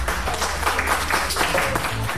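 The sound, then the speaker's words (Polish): Applause from an audience greeting the opening of a civic-initiative Museum of Jars of the World, a steady, dense wash of clapping that holds at an even level throughout with no voices. “Oklaski!”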